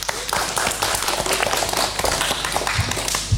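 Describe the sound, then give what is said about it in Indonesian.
Applause after a children's poem recital, dense, continuous clapping with many sharp overlapping claps at a steady loud level throughout. “Beri tepuk tangan yang meriah dong.”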